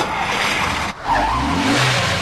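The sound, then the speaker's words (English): A video game car drives off with a continuous engine roar. After a brief dip in the sound, the engine note climbs as the car pulls away. “you think we should have waited for them to load the presents before we drove off?”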